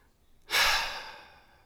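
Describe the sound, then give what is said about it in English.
A single deep breath drawn and let out, one airy, breathy rush that swells quickly and then fades away, heard alone. “You can just take a really deep breath and let it out”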